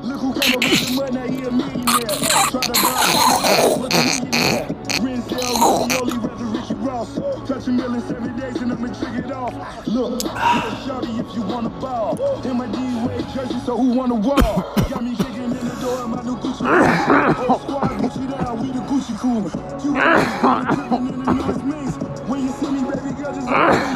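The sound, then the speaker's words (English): Coughing from a person trying to hold it back: a run of harsh bursts in the first few seconds, then softer throat and breath sounds with scattered further coughs through the rest. “I was trying to do all that to hold my cough”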